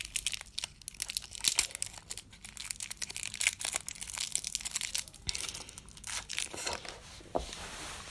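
Crinkling of a wrapper as the fifteenth door of a chocolate advent calendar is opened, with a chocolate bonbon inside: a quiet, irregular run of crisp crackles and small tearing sounds, with a few sharper snaps.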